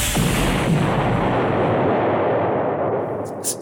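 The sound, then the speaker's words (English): A high-impact missile fires and explodes in a science-fiction space battle, producing a loud roaring blast whose broad rumble holds steady for about three seconds before tapering off. “Actually, I do hate to break it to you there, but we're just gonna shoot you down. I don't think so. Activating high-impact missile.”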